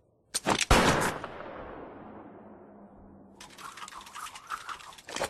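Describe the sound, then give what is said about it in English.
Gunfire striking ironwork: a loud burst of rapid shots and metallic cracks, a long fading ring, then a second stretch of quicker, quieter rattling hits. “You're shooting ironwork.”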